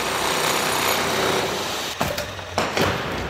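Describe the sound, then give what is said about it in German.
Construction work inside a museum building under renovation: a steady, loud mechanical whine and hiss of power tools, broken by a few sharp knocks toward the end. “MDR Thüringen-Reporterin Katrin Welzel hat sich fürs Fazit vom Tag mal auf der Baustelle umgeschaut. Das Lindenau-Museum klingt. Leise in der zweiten Etage und laut im ersten Obergeschoss.”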